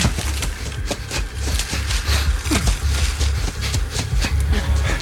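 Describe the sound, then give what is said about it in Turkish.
A train's rumbling clatter with rattling, clicking wheels over a low steady drone, loud and continuous throughout. “Dinleyin. Ne oldu? Tren.”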